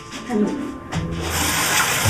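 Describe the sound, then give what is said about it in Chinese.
A dirty rag is rinsed under a running kitchen tap, giving a steady rushing hiss of water that grows fuller and louder in the second half. “哎呀，我让你洗手，你怎么洗上抹布了？ 这抹布有点脏，我给他投一下。”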